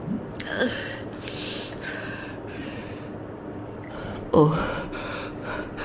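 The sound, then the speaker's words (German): Gasping breaths from a person waking after cryogel has been cleared from their lungs: several rough, noisy inhales and exhales, then a sharper, louder gasp near the end. “Atmen Sie ruhig. Einatmen, ausatmen.”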